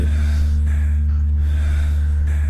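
Heavy breathing right up against the microphone, with a few rough, airy breaths rising and falling over a steady low hum.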